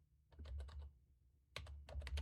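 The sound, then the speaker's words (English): Quiet typing on a computer keyboard comes in two quick bursts of keystrokes separated by a short pause. The clicks are crisp and faint, with no voices. “let me see if I type that in right.”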